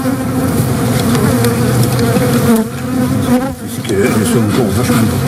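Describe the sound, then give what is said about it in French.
Honeybee colony buzzing inside the hive: a dense, continuous drone of many wings, loud and steady with a rich low hum and layered overtones, briefly thinning once before swelling again, with no voices. “Le son dans la ruche, en fait, c'est pas un brouhaha, c'est un chant.”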